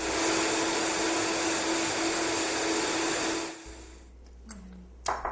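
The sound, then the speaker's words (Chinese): A blender mixes several soup ingredients with a loud, steady whirring roar that runs for about three and a half seconds, then stops, leaving near quiet. “大卫将来自世界各地的几种原料混合以后放进搅拌器，很快就能制成一道汤。”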